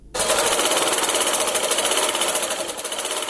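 A sewing machine runs in a handicraft workshop in Kabul, a loud, fast and even mechanical whirr that rattles on without pause.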